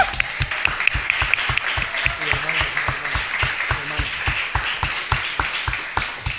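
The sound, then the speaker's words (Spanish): Audience applause greeting a cast member on a show, heard as rhythmic clapping in time: many sharp, evenly spaced claps in a steady beat, with people talking over part of it. “Un aplauso, por favor.”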